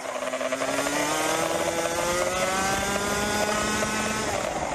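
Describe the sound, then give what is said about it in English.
Engine of a 125cc racing kart on a track in Florida, a loud, continuous, high-revving buzz with strong harmonics that stays steady throughout, with no voices. “Footage from the camera on board Fabian Lans's 125cc kart shows her racing on a track in Florida, the United States, at speeds sometimes reaching 100 miles per hour.”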